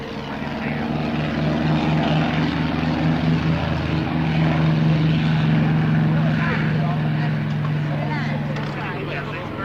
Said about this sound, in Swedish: Det är alltså Amerikas sista snabbaste propellerdrivna jaktplan.